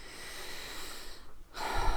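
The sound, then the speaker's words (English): A deep breath drawn slowly, heard as a steady, soft, airy rush that runs for over a second, breaks off briefly, then resumes slightly stronger near the end. “Starting with another deep breath.”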